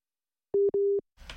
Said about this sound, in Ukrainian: Перервався зв'язок, пане Валерію.